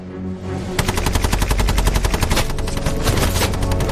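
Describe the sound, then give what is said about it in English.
Bren light machine gun fired from an upper window, sweeping a hedge line: after a brief quiet start comes a loud, sustained burst of many rapid shots in an even, rattling rhythm that continues to the end. “He places his last Bren gun in an upper window overlooking the position. Lonsdale signals the gunner to sweep the hedge line which conceals the German soldiers.”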